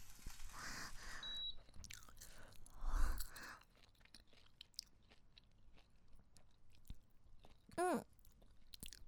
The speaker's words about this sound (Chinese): 好香！我先尝尝。